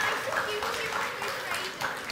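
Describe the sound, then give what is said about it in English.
Applause for children after a reindeer rescue activity, with brisk clapping blended into a steady wash as a voice talks over it. “Give them a round of applause. They did so well there.”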